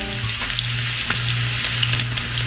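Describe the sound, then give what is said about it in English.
Bacon sizzles while frying, a loud, steady crackle with dense popping that runs unbroken throughout, with no voices. “It's the sound of bacon. It's bacon.”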